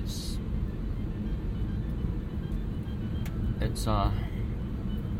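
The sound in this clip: An older car driving along, with a steady, deep road rumble and engine drone that hold evenly through the whole stretch and give a smooth ride.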